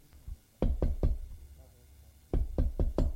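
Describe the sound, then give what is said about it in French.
Knuckles rap on a hotel room door: three sharp knocks, a pause, then four more in quick succession, each crisp and hollow. “Il trouve la chambre 203, hésite un moment et frappe.”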